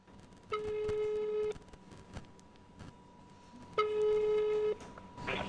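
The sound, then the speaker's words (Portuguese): A telephone call rings out as two long, buzzing ring tones separated by a pause of a couple of seconds, followed by a faint click at the end. “Vamos ligar para lá para ver se está funcionando mesmo?”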